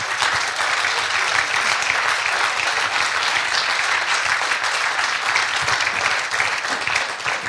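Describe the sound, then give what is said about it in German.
Big applause welcomes an artist and a female boxing world champion, a loud, thick wash of many hands clapping that holds steady and unbroken throughout. “einen Riesenapplaus ersuchen für die Künstlerin Sabine Wiedenhofer und Boxweltmeisterin Michaela Kotaskova”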